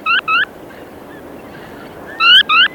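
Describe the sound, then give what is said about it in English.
Calls of critically endangered spoon-billed sandpipers, shorebirds resting and feeding on migration between Siberian nesting grounds and Southeast Asian wintering habitat. Four short, bright harmonic calls come in two pairs, one at the start and one at the end, with a quiet gap between. “on Earth where spoon-billed sandpipers can still be found”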